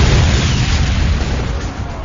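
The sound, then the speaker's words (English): A hand grenade detonates inside a building lobby with a loud, dense, low roar of blast noise that holds steady over the whole stretch before easing a little near the end. “Hot metal fragments from the detonating grenade decimated the guards within”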